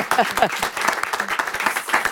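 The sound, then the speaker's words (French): Short round of applause in a studio for a prize-winning novelist, brisk uneven clapping with a voice briefly heard over it at the start. “Et encore bravo, on peut l'applaudir un petit instant.”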